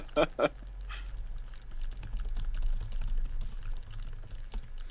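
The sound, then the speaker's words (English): Computer keyboard typing: a quick scatter of light key clicks goes on for several seconds over a low steady hum. “while I was typing something on Slack about Charlie Loeb”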